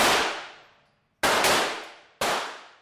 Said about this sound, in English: Every Tuesday night, the Cowtown Divas take over the Shooting Gallery, an indoor firing range in Fort Worth, Texas.